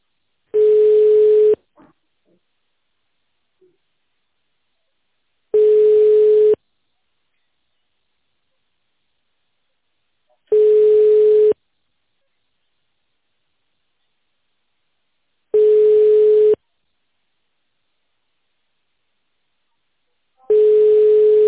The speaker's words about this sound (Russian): Пожалуйста, оставайтесь на линии. Происходит соединение.